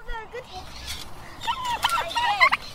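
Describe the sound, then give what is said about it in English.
A chicken being fed on a farm gives short, chattering clucks that cluster in the second half, with people talking alongside. “I'm feeding that chicken. He's eating all what I gave him.”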